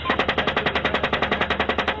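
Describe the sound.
Machine gun fire in Iraq war combat, a loud sustained burst of automatic shots that come in a rapid, evenly spaced stream with no pauses.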